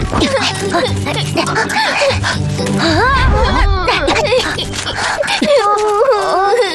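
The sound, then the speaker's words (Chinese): Sobbing and wailing from a little rabbit character whose home was taken, a high wavering voice rising and falling in uneven cries over a dense, steady background. “你们听到了吗？好像有人在哭。”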